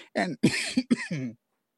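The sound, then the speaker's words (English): Someone coughing: a quick run of several short, harsh coughs close together, followed by silence. “excuse me, there I go with the coughing.”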